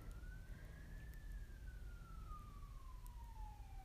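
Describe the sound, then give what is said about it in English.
A faint siren wails outside, one tone climbing briefly, then gliding slowly downward over a low rumble. “there's sirens outside.”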